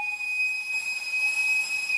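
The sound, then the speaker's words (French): Steam boiler at a distillery whistling: a steady, piercing high tone with a fainter lower tone beneath it and a constant hiss of steam, held unchanged for about two seconds. “Les chaudières à vapeur.”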